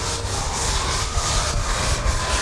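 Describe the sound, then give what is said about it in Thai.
A long-handled brush scrubs a tiled floor, producing a steady, loud, continuous rasping swish that runs throughout without pauses. “ใช้แปรงนะครับอาจจะเป็นด้ามจับแบบนี้ด้ามยาวก็ได้นะครับแล้วแต่นะครับที่นักเรียนมีนะครับขัดลงไปบนพื้นเลยนะครับขัดไปโดยรอบให้สะอาดเลยครับ”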